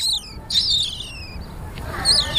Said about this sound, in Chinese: 这里面还有三只喜鹊呢。